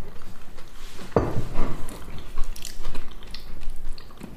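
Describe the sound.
Crunchy, still-warm gluten-free crumble with tiny streusel bits is chewed in a steady stream of crisp, moist crunches. A sharp bite stands out early, and the crunching continues at a fairly even level with no talk.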